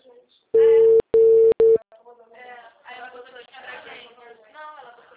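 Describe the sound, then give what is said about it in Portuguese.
Telephone tone while calling a client: three loud, steady beeps in quick succession, the last one shorter, followed by a voice talking. “Tô ligando pro cliente.”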